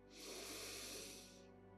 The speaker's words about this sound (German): Nimm hier einmal einen tiefen Atemzug, atme tief in deinen Körper ein und werde richtig wach.